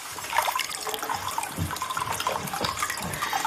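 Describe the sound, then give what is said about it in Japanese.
Hot spring water pours continuously into a bath. The source-fed water is lukewarm and slightly thick, making a steady, fairly loud gush and splash with no pause. “かけ流しですって、こう源泉ね、ちょっとぬるめになってますが、このね、とろっとしていますよ、ちょっとお湯がね”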